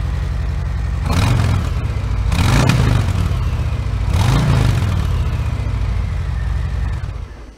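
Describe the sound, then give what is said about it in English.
A Harley-Davidson Milwaukee-Eight motorcycle engine runs with a low, throbbing idle rhythm. Three distinct throttle revs swell and fall back before the engine sound drops away at the end. “Decibel levels very similar, but you can hear that Milwaukee H just sounds tighter, the repetitions of the motor are closer together, and it just offers a very unique sound, staying true to that Harley-Davidson sound.”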